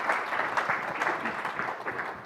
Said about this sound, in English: So, with your applause, will you please join me in welcoming Senator Murkowski to the podium.